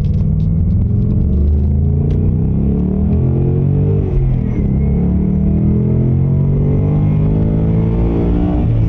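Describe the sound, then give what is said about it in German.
A car engine burbles as the car drives off, a deep, steady rumble with layered low throbbing tones that stays loud and even throughout, shifting slightly midway. “So, wir fahren jetzt einfach mal los. Jetzt haben wir noch das Blubbern.”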